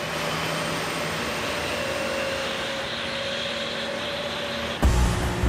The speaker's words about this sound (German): Um 12:30 Uhr, die Piloten starten die Triebwerke.